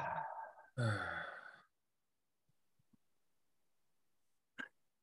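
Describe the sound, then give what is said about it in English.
A deep, audible breath out during a guided breathing exercise, long and sigh-like with a voiced tone. It is followed by near silence with faint clicks and a brief breathy sound at the end. “So exhale all the air out. And inhale through the nose. And exhale.”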